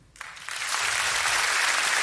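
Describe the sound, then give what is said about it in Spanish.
Audience applause for a contestant at a live comedy show, starting after a brief quiet moment and quickly building into dense, steady clapping that stays loud to the end. “Uy, es un buen aplauso, ¿no? Es un buen aplauso.”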